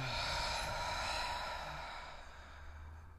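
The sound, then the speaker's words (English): Slow exhale through the mouth during a guided breathing exercise, a soft airy rush of breath about three seconds long that gradually tapers off, faint and alone. “Inhale through our nose. Exhale through our mouth.”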